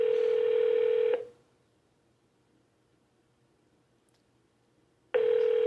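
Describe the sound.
Ringback tone on a call to a business line that never picks up: a steady, bright electronic tone that cuts off, leaves about four seconds of near-silence, then starts again.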